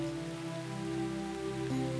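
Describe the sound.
Rain falling, heard as a soft, even hiss over a sustained low drone, steady and unbroken through the short two-second stretch.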